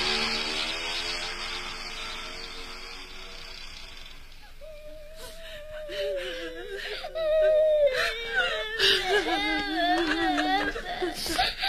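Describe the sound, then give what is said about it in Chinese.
A woman crying in grief over a man's death, her sobbing, wailing voice wavering up and down in pitch, loud and sustained after a stretch of steady background noise. “不要哭了，公安局来人了。”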